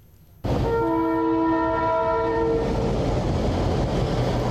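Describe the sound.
Trains departing a railway station in Banja Luka after a strike ends. A train horn holds a steady chord for about two seconds over a loud, continuous rolling rumble that carries on after the horn stops.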